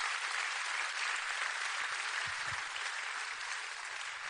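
A church audience applauds, a steady, even wash of clapping that holds fairly softly from start to finish with no talk over it.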